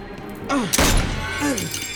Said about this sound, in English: He shoots through the handcuffs.